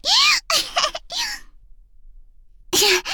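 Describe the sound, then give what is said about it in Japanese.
A person gasps for breath after exhaling too long during a breathing exercise: strained, voiced gasps in three quick bursts, a short silence, then one more loud gasp. “お話をしながら息を吐いてたら、吐きすぎちゃったみたい。今の私みたいに、息が苦しくならないようにね。”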